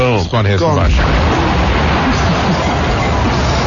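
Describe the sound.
An explosion sound effect: a brief voice at the start, then a loud blast that becomes a dense, sustained roar lasting about three seconds.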